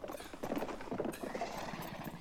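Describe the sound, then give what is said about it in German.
A horse galloping, with a rapid, steady drumming of hoof beats that runs through the whole moment at a moderate level. “Oh, was für ein herrlicher Galopp.”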